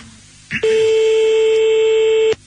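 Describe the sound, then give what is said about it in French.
A single long, steady electronic phone tone sounds while someone is called back, opening with a short click and holding an even pitch before cutting off abruptly. “Alors on va le rappeler et moi je vais lui parler direct.”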